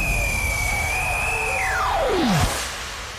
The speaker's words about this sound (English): For your safety, please keep your seatbelts fastened at all times. Flight 002 is cleared for takeoff.